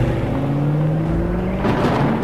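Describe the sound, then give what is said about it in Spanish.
A taxi engine accelerates at full throttle in the middle of the night: a loud, steady roar whose engine tone climbs gradually in pitch. “Ahí aceleré a todo lo que daba el taxi para alejarme de ahí del sitio.”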